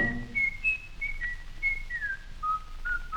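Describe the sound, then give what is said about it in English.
A man whistles a cheerful tune, a clear, pure melody of many held notes stepping up and down in pitch, with no talk. “whistles his worries away”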